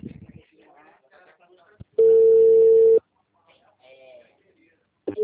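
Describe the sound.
Telephone tone after a dropped call: a single loud, steady beep lasting about a second, standing out against faint speech before and after it, with another tone starting at the very end.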